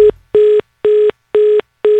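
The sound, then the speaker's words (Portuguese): Telephone ringing with an incoming call: a steady series of short, evenly spaced electronic tone pulses, four full ones after a clipped start, each a mid-pitched buzzy burst with silent gaps between, heard alone. “Atende o telefone aí, mano. Ah, olha aí, mais um chamando, mais um ligando pro Romildo.”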